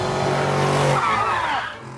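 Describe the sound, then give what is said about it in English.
Tires squeal as a car skids while swerving out of a truck's path, a loud screech over engine roar whose pitch bends downward and fades near the end, with no talk. “The mom turns round and skids out of the path of the truck.”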